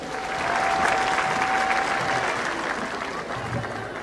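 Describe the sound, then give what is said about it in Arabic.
An audience applauds a conductor and a national orchestra after a concert. The dense, steady clapping holds for about four seconds, then eases slightly toward the end. “ونحب نسمع تصفيقة قوية على المايسترو يوسف بلهاني وكل الفرقة الوطنية الكل الكل.”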